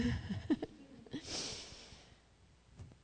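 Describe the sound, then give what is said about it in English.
A deep breath, one audible airy inhale lasting under a second that rises out of brief vocal sounds, then fades into quiet with a faint trailing noise. “okay, deep breath.”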